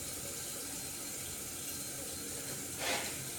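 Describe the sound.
Washing at a sink with the tap running, a steady continuous rush of water throughout with a brief louder splash near the end.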